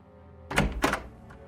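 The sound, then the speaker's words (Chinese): Knocks land on a neighbour's door at one in the morning: two firm, dull thuds close together, then a fainter third knock. The night is otherwise quiet around them. “凌晨一点，宋小沫敲响了隔壁朴恩熙的门。”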